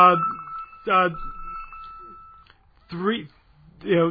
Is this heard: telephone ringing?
yes